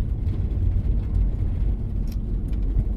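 A car drives along a very narrow, overgrown forest road: a steady, loud, low engine and road rumble continues throughout, with only a few faint ticks above it.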